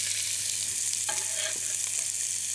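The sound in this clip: Onions sizzle in clarified butter in a hot pan with a constant, fairly strong frying hiss. A few faint stirring clicks and scrapes come through around the middle.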